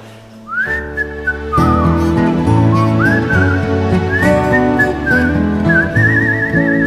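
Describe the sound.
A person whistles a clear, high tune at a live concert. After a short opening phrase, full instrumental backing comes in, and the melody glides and ends in a wavering trill.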